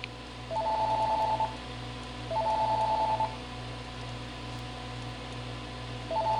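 A telephone rings with an incoming call, its warbling electronic tone sounding in two full bursts separated by a pause, with a third ring just starting at the end, over a steady low hum.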